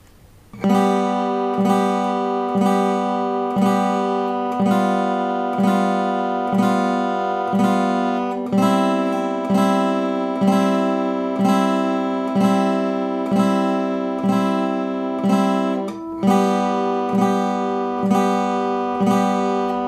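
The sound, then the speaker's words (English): Guitar chords strummed in a steady four-beats-per-bar exercise: a G chord on the top three strings, then G7, then C. Many even, ringing strums are heard alone, with clear chord changes between sections. “So it's a G chord, which is played the top three strings, then to a G7.”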